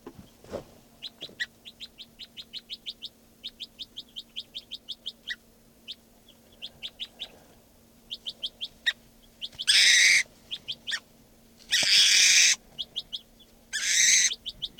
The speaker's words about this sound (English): Stop. Recording this is bird 590.